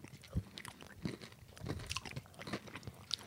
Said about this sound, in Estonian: Ta on nagu Hershey's bar. Mm-hmm. See cookies and cream. Aga veits vähem kaloreid ja veits rohkem valku.